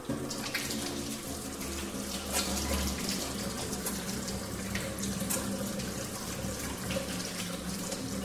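Water running from a tap as hands are washed while cooking a pan kebab. A steady, loud rushing flow carries irregular splashes throughout, with no voices.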